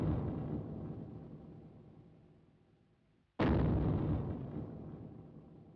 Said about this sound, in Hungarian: Ez lehet nem is bombarobbanás, hanem szörny léptek, hogy dübörög a föld.